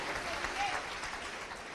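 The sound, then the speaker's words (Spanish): Dense, sustained applause from the audience at a Spanish-language education convention, welcoming the attendees with a loud, even wash of many hands clapping that holds steady for the whole stretch. “Vamos a darle un fuerte aplauso por estar aquí, por haber decidido estar tomando información.”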